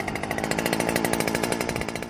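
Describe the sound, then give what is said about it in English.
A powered drill bores holes into farm soil among tomato plantings to place sensors. It gives a loud, steady, buzzing motor whine with a fast pulsing rattle that holds constant throughout. “Alongside them, the researchers use a drill to dig holes to put sensors underneath and around the crops.”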